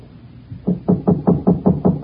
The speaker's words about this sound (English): But nobody answered my knock.